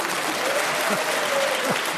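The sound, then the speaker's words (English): A studio audience applauds during a comedy panel show: a steady, dense wash of clapping that holds at an even level throughout, with faint voices underneath. “I don't know whether you're applauding the fact that Stephen spotted it or you're mocking Paul for what he said.”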